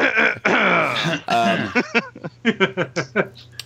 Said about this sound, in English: The guy who clears his throat.